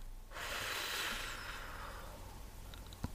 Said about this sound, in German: Tief einatmen. Und wir machen es noch einmal. Alles ausatmen.